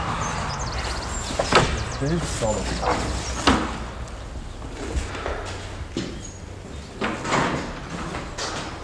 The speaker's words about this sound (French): Une vraie serrure gasconne, il faut ouvrir à l'envers.